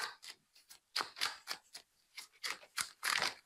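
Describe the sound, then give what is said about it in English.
Cards are handled for ASMR, giving many soft, crisp snaps and flicks in an uneven rhythm, quiet and close with no talking. “Time for the card ASMR.”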